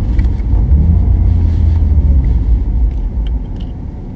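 A car engine rumbles low and steady with exhaust bubbling during gear changes. The deep droning note is loud and continuous, with faint, brief pops and crackles near the end.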